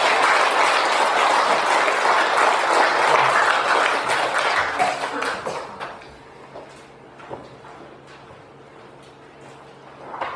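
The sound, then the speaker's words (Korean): Congregation applause welcoming a preacher at a church youth worship service: a loud burst of many hands clapping for about five seconds, then fading quickly into near quiet with only a few faint knocks and shuffles. “이제 가시면 큰 박수로 한번 환영해서 말씀 듣도록 하겠습니다.”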